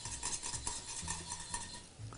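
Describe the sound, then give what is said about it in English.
Stirring reducing cream in a pan with a utensil: quiet, rhythmic scraping strokes repeating roughly twice a second over a steady hiss, with no talk. “Continuing to stir helps to bring this down nice and quickly.”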